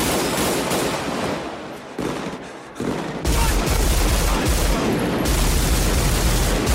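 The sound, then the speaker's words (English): Relentless gunfire from the shootout in the film Heat: dense, overlapping automatic bursts and heavy booming shots that grow louder and more continuous, with no dialogue over them. “Minimal dialogue. And that's there's 3 minutes of nonstop shooting.”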